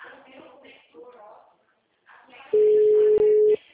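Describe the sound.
A telephone tone from a call that goes unanswered follows a few seconds of people talking. It is one steady, fairly loud beep lasting about a second, with a brief dropout partway through.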